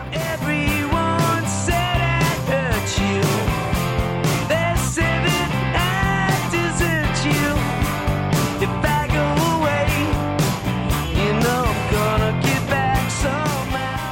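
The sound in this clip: A rock band plays a cover of a 1960s folk-rock song, with dense strummed guitars, bass and steady drums. The music is loud and continuous, with no talking.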